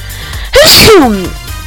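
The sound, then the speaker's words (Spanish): A single loud human sneeze: a short voiced catch, a sharp explosive burst, then a falling vocal tail, heard alone against a quiet background. “espérenme que voy a estornudar”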